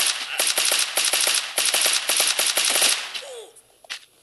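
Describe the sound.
Automatic gunfire from a shooter video game, with many rapid shots in tight bursts for about three seconds, then dropping off to a few faint, scattered sounds.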